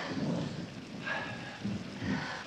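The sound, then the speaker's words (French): Rain and thunder from a thunderstorm scene in a film: a steady hiss of rainfall with a few low, rumbling swells rising through it, no voices. “Il y a une scène de pluie dans le film. Il y a un orage.”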